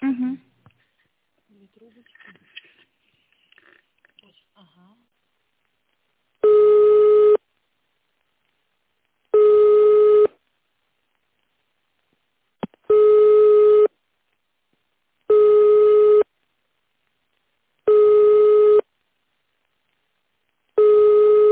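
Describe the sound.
A telephone line tone plays while an office call is being transferred. Six steady, mid-pitched beeps of about one second each repeat in an even rhythm with longer silent gaps, after a few seconds of faint, scattered low sounds.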